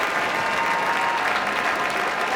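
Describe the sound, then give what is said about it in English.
Audience in Tanglewood's Koussevitzky Music Shed and on the lawn applauding the Boston Symphony Orchestra after Beethoven's Sixth Symphony, a dense, steady wash of clapping at even loudness throughout. “other solos in this piece that are being acknowledged by Andres Nelsons as the audience here in the Kuzovitsky Music Shed and on the lawn show their appreciation for Beethoven's Sixth Symphony”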